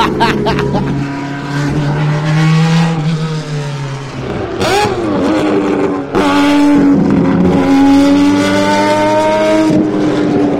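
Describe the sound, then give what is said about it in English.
Race cars roar through a support race at Le Mans. Several engines blend into a continuous loud howl, with engine notes that shift, rise and fall as the cars drive on. “So they're not hanging around. It's brilliant. And this is just a support race. I know, this is just a warm-up.”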